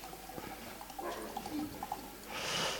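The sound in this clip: Chilled water from a kitchen freezer is poured to serve, giving faint gurgling and dripping that swells into a brief splashing rush at the end.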